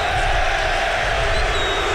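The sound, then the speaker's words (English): Newcastle fans booing inside the stadium during a match against Liverpool, a broad, continuous low roar of crowd noise that stays steady and loud. “booed by the Newcastle faithful.”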